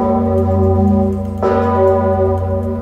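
Deep church bells toll from Wawel Cathedral in Kraków for the late pope, a sustained tonal ringing with a fresh strike near the middle that blooms and hangs on, steady and loud throughout with no voices.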